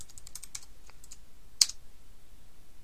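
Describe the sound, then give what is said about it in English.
Keys clatter on a computer keyboard as a username and password are typed: light, quick, irregular clicks, mostly faint, with one sharper keystroke partway through. “I'm going to type the username in, and I'm going to press tab, and I'm going to type the password in.”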